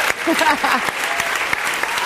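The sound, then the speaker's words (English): An audience applauds in a brief, dense wash of clapping. A voice calls out over the clapping near the start. “Could you all please give Lovely just another round of applause?”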